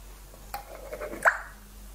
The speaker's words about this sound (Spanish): Si queréis más fuerte, el vinagre de Jerez. Y un chorroncito de aceite de oliva.